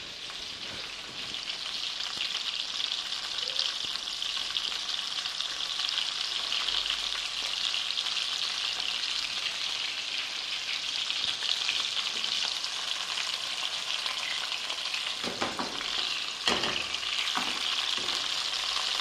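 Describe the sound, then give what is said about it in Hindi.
Fish sizzling in a pan over high heat, a steady crackling hiss throughout with a few stirring clatters near the end. “उसको मैं fast heat पर बनाऊंगी क्योंकि आपको पता है फिश जो है वो बहुत टेंडर होती है, उसका मीट बहुत टेंडर होता है और हम उसे बहुत फास्ट हीट पर पकाएंगे।”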